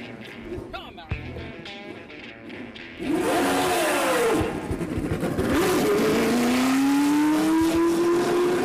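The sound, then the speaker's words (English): A black and gold Lotus 78-79 race car fires up on a track: a quieter rumble first, then the engine roars to life with revs swinging up and down before settling into a loud, steadily rising drone. “And that was Mario Andretti's 78-79 black and gold Lotus firing up on the track at Circuit of the Americas.”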